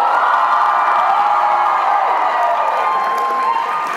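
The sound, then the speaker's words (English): A live audience at a summer camp in Salina, Kansas, cheers and whoops in a loud, sustained roar that holds steady throughout and eases only slightly at the end. “there is a live studio audience in the house with me. Let them hear it again, guys.”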